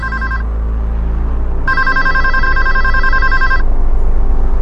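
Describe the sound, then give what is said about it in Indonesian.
A telephone ringing in a room: a bright electronic ring clipped short at the start, a brief pause, then a second burst of ringing lasting about two seconds, all over a steady low hum. “Ada suara telepon berbunyi di kamar itu.”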